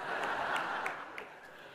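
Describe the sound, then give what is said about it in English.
A brief round of applause from an audience at a church sermon: a soft wash of clapping that thins out, leaving a few scattered, separate claps near the end. “Have a round of applause.”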